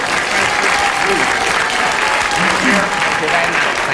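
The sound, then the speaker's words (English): A studio audience at a panel game applauding, with dense and steady clapping that fills the whole clip at an even, loud level. “I hope you were cheering Kenneth's invective and not his ideas.”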